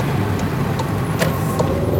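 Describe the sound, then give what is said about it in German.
A car drives out of the centre of Graz with a steady, unbroken rumble of engine and road noise. A few faint, brief clicks sit above it, and no voices are heard. “Na, wir fahren jetzt aus dem Zentrum, aus Graz, ungefähr 20 Minuten, eine halbe Stunde nach Kehlberg, wo der Herr Gostenschnik gewohnt hat.”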